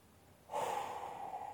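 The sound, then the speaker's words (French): A faint breath, part of a guided exercise of breathing in through the nose and out through the mouth, starts abruptly as a soft, airy rush. It lasts about a second and is heard alone, with no talk. “Pour les respirations à venir, inspire par le nez et expire par la bouche. Inspire,”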